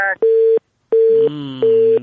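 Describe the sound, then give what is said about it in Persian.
A telephone line tone follows a call being cut off: three steady, flat-pitched beeps separated by gaps, with a faint voice-like hum beneath the later part. “این دومین تماس است که قطع شد.”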